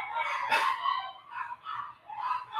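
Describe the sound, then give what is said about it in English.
Four dogs and a parrot kicking up a fuss at home: a few faint, overlapping bursts of excited barking and squawking, with no voices. “that's your bird and your dog, right? Yeah, yeah. So for everyone listening, I have 4 dogs and a parrot, so they kind of go crazy.”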